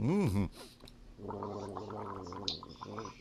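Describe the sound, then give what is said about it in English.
Gargling with coffee makes a bubbly, throaty rattle that runs for about two seconds after a short voiced sound at the start. “You're gargling with coffee now? Yes, yes. I'm gargling with coffee.”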